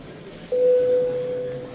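Parliament voting signal during a vote: one steady mid-pitched electronic tone that lasts about a second, over a faint low hum.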